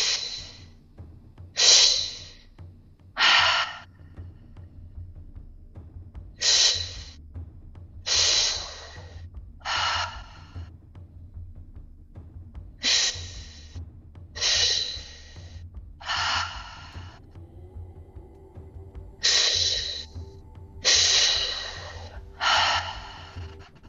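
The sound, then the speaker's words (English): Deep, slow breaths in a guided breathing exercise: a long series of airy, breathy bursts, each rising and fading with short quiet gaps between them, alone without speech. “just exhale and release. Let it go through the breath.”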